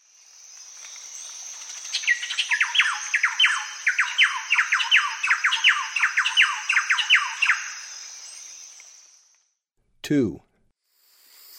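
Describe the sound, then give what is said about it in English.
Calls of a thrush-like wren: a rapid, rhythmic run of many bright, clipped notes lasting several seconds, over a steady high insect-like drone that continues after the calls stop. “thrush-like wren.”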